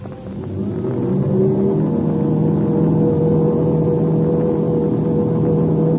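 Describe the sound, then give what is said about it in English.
Deep engine drone of an English aircraft running up its motors before takeoff, swelling over the first second and then holding as a loud, steady, continuous roar. “The English ship's running up its motors.”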